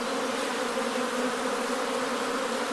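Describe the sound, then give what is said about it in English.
Honeybees buzzing around a hive as they are lifted into a new hive, a dense, steady drone that holds at an even loudness throughout with no voices. “Amazing sound, isn't it? No. It's all right, bees, it's all okay.”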